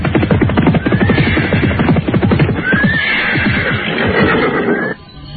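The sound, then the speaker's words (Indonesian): Horses neigh loudly while their hooves clip-clop in a fast, steady beat as riders head away from a village border. The drumming hoofbeats run continuously, with whinnies rising above them, then cut off sharply near the end. “Mereka terus berkuda semakin jauh meninggalkan perbatasan desa Pasuruhan Satu.”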